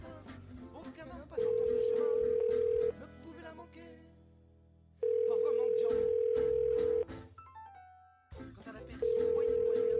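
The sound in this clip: A steady electronic telephone tone from an outgoing live call sounds in three long, even beeps separated by pauses, over a busy background of talk.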